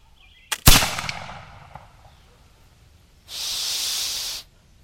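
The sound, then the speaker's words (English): A gun is fired once: a sharp, loud crack with a long, decaying rumbling tail. Some seconds later a steady, hissing burst rises and holds for about a second before cutting off. “let's see if I can dirty my gun. You guys ready for some noise? Fire in the hole.”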